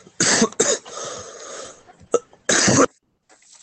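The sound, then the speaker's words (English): Harsh coughing from a ghostly body amid smoke: a few loud, raspy bursts with a longer rough stretch between them and a final heavy cough, with no talk. “Why is the ghostly body coughing? He's gonna give us away.”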